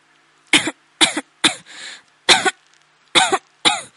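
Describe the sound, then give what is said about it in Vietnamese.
Violent coughing from someone choking on thick smoke while fleeing a fire down a stairwell: six harsh, loud coughs in an uneven rhythm, with a raspy, drawn-out breath after the third. “Lâm Thu Thạch không ngừng ho sặc sụa, làn khói dày đặc khiến nước mắt chảy ràn rụa.”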